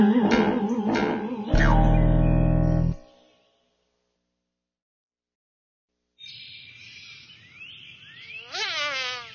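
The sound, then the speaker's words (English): Buzzing fly in a children's story about a frog who eats it for lunch. A harmonic tone comes first, then silence, then a thin insect drone with a few quick chirpy sweeps near the end. “Buzz, buzz, buzz. Frog eats a fly.”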